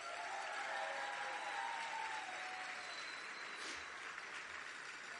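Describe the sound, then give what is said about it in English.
An audience applauds as someone is introduced on stage, producing a dense, continuous patter of clapping that stays faint and even throughout. “Make some noise for Christina Weiss-Lurie.”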